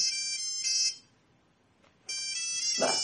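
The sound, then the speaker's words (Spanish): An electronic phone ringtone for an incoming call plays a bright, high, melodic tone pattern, breaks off for about a second of near-silence, then starts again at the same level. “me están llamando Paco y Dani.”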